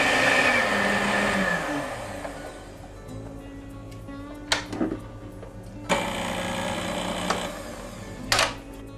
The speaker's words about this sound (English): Gradually add the sugar till you get the stiff peaks. See how nice and high it is? Stop your beaters.